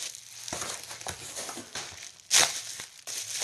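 Bubble wrap around a hardback role-playing game book crinkles and crackles as it is handled, a series of soft rustles and sharp crackly bursts with one louder crunch midway.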